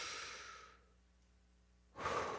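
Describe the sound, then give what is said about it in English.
Two deep breaths drawn in as a calming exercise for working through anger. Each is a soft, airy rush of breath, and a quiet pause separates them. Nobody speaks. “If you want to work through anger, you take in a big breath. And you take another one.”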